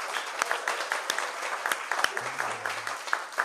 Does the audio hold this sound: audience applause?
yes